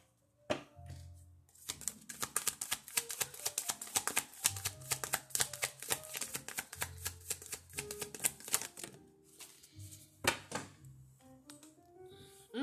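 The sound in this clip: A deck of cards being shuffled during a card reading, heard as a long run of rapid, crisp clicks and flutters. The rhythm is irregular, with a few louder taps and short pauses, and no voice is heard.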